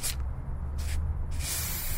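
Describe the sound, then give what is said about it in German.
A spray paint can hisses as a graffiti artist works, with three bursts of bright, airy spray: two short ones and a final longer blast, heard alone over a low background rumble. “Nachmittags um 3 zieht sie los mit Sprühdose in ihrem Heimatort bei Bautzen.”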